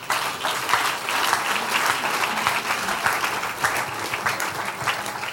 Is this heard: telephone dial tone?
no

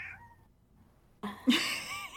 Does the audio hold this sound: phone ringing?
no

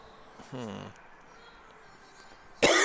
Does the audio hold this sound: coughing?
yes

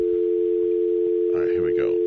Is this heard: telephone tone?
yes

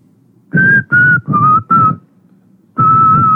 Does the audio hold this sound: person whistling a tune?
yes

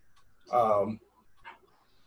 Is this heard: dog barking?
yes

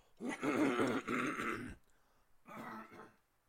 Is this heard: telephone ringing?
no

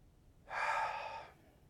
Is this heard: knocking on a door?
no

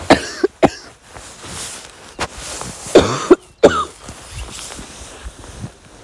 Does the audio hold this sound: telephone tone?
no

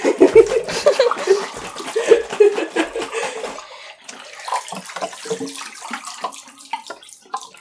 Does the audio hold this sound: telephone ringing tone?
no

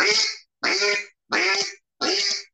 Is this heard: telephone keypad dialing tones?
no

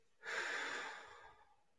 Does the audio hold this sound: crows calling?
no

